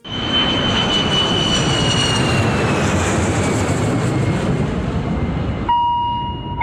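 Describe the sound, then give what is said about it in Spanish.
A Boeing airliner taking off roars loudly and steadily throughout, with a high engine whine that slowly drops in pitch over the broad rumble, until the sound cuts off sharply near the end. “Despega el Boeing 630 del S5 Radio Rivadavia.”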